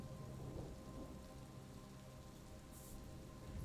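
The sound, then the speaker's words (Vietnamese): Steady late-afternoon rain falls as a faint, even hiss of drops that carries on without a break. “Trời về chiều, cơn mưa vẫn không hề có dấu hiệu tạnh ráo.”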